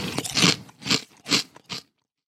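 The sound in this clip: Someone eats jalapeños in four crunchy, chewing bites spaced about half a second apart, each a short crackly burst. The last bite is a little quieter, and silence follows.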